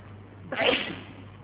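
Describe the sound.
A single sneeze bursts out sharply midway through, a short breathy blast that quickly fades back into quiet background hum.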